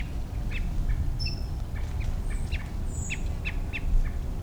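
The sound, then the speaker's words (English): Quail calling near a group of half-grown chicks moving through a buckeye, with many short, high chirps and peeps in an uneven scatter over a steady low background rumble. “I think that's a quail also.”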